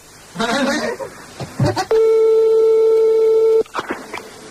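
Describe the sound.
A telephone line tone plays during a prank call made from a radio studio: one steady, continuous buzzing tone of under two seconds, with people talking just before and after it.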